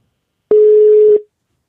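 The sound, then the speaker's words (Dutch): A single steady mid-pitched telephone ringing tone plays alone while a call is placed, lasting under a second with a clean start and a quick fade. “Ja, kijk, hij doet het. Hij gaat over. Spannend. Zou ze opnemen of niet?”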